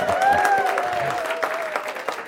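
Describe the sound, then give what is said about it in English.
A theatre audience applauds as the curtain rises for the third act, a dense, steady wash of clapping with a faint sustained tone beneath that eases slightly toward the end. “The curtain raises, and once again, there's huge applause from everyone.”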